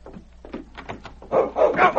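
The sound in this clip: A large dog barks as it charges, letting out a quick run of short, sharp barks. The barks grow much louder and fuller toward the end.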